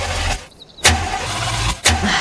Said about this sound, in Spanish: ¿Y ahora quieres encender el motor?